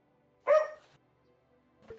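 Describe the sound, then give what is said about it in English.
A dog barks in a forest: one sharp, loud bark, then a fainter, shorter yelp near the end. “There's dogs in this forest.”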